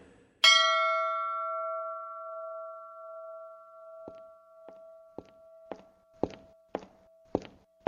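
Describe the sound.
A small service bell is struck once, ringing out with a bright attack and a long, clear, steady tone that slowly fades. Several soft thuds like footsteps follow while the tone is still ringing.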